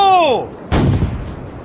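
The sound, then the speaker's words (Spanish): A small bronze cannon on a ship's bow fires a signal shot in fog: one sharp, loud boom that decays over about a second, just after a brief shouted command whose pitch falls. “¡Un disparo! ¡Un disparo para llamar la atención de algún barco de rescate! En la proa del Tankadera había un cañoncito de bronce que servía para hacer señales de humo... ¡Fuego! ...en tiempo de bruma. ¡Fuego!”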